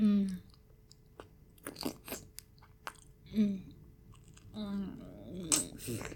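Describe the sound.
Chewing and biting into a juicy nectarine: soft wet crunches and smacking bites spaced irregularly, faint, with a voice murmuring between mouthfuls.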